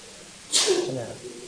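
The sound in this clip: A single sneeze bursts out as a sharp, hissing onset and ends in a short voiced tail, with quiet background before and after.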